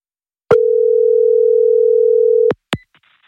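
A single telephone ring tone waits to be picked up, a steady mid-pitched tone lasting about two seconds. It cuts off sharply, followed by a couple of brief clicks.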